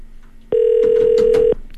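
A telephone call rings out to the person being called: one steady, single-pitched ringback tone lasting about a second, with quiet gaps before and after it.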